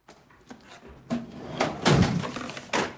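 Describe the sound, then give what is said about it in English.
A filing cabinet drawer is shut in an office, heard as a run of muffled knocks and a sliding rumble. A sharper thump comes near the end. “As he shuts the drawer, one of them falls down behind the cabinet.”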